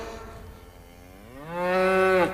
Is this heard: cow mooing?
yes